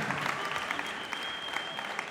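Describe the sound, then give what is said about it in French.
Applause from an audience, a brief burst of dense, even clapping at a fairly faint level with no voices standing out. “Allez, merci, les applaudissements.”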